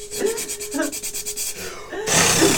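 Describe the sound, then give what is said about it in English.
A voice imitates a drill sealing a letterbox shut, as in Philosopher's Stone: a rapid pulsing buzz over a steady tone, giving way to a harsh, loud hiss at the end. “you know in Philosopher's Stone when the post letterbox is drilled shut, and you just hear like yeah, you get that. You hear like a”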